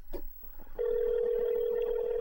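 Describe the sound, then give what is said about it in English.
A telephone call rings out on the line: after a brief faint noise, a steady mid-pitched tone begins and holds level to the end. “All right, I'm calling him.”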